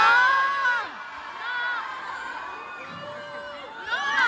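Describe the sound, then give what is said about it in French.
Audience shouts and jeers during an onstage speech against bullfighting in Bayonne: several drawn-out voices cry out, loud at the start, dipping midway, then swelling again at the end. “Alors, il y a une partie du public qui dit non. Quand elle dit « Est-ce que vous trouvez ça normal qu'on mette à mort des animaux ?» Et il y en a d'autres qui hubent.”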